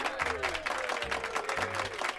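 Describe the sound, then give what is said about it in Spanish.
Audience applause after a debate: quick, crisp claps repeating steadily throughout, with a low sustained tone underneath. “Yo creo que os voy a dar un aplauso por lo menos, ¿eh?”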